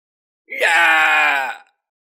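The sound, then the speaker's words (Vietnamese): A man screams in agony and terror: one loud, sustained, strained cry lasting just over a second, with no other sound around it. He is a half-step great power of the Xiao clan in a dark underground palace. “Đột nhiên một vị nửa bước đại năng của Tiêu gia kêu lên thảm thiết, tràn ngập hoảng sợ.”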